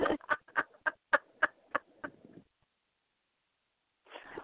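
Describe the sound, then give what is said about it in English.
A pet bird gives a quick, evenly spaced run of harsh, raspy squawks, loud and alone, then falls silent. “Oh, God. Bird.”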